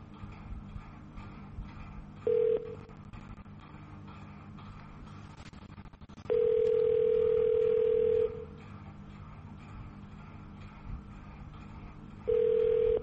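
Tones of a telephone call being transferred on a police department's automated line: a short tone, then a sustained tone of about two seconds, and another starting near the end, over steady line hiss.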